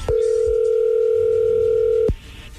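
A telephone dial tone sounds while someone is being called: one steady, loud, continuous electronic tone that holds for about two seconds, then cuts off abruptly into faint background noise.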